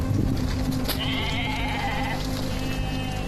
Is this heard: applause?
no